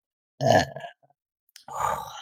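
A person lets out a loud, low, throaty burp, and after a short pause a second drawn-out vocal sound follows.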